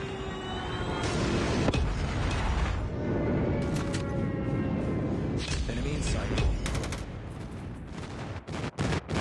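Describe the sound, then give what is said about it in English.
Explosions and gunfire from a friendly airstrike and predator missile in the Call of Duty video game, a dense, continuous loud roar of blasts with sharp cracking bursts clustering near the end. “Friendly airstrike incoming. Predator missile inbound.”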